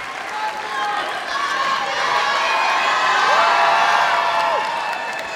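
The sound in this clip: A live storytelling audience cheers and screams as a storyteller walks on stage: a dense, sustained wash of shouting and whooping, with high yells rising above the crowd noise throughout.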